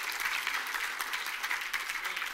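A church audience applauds during a praise service, giving a steady, even wash of many hands clapping together at moderate loudness from start to end.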